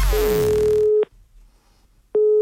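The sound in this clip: Telephone line tones sound as a prank call is placed, two steady mid-pitched beeps about a second long, separated by a short, near-silent gap.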